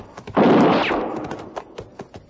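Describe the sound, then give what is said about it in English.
A woman fires a rifle at a shack: one loud, sharp shot bursts out and decays over about half a second, followed by a few faint clicks. “I found a woman who appeared to be in her middle 30s busily firing a rifle at a shack that stood some 100 yards beyond me.”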